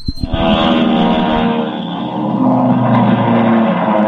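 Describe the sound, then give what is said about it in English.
Roaring engines of race cars speeding along a track on the straightaway late in a race: a loud, sustained, steady drone that swells briefly near the start and then holds without pause, with no voices. “The conclusion of the 19th lap with only 10 miles left to go. Fred Benson and his race specialist still leading the field, but Jim Lane is pushing him hard. Here he comes now. He's getting very fast as they hit the straightaway.”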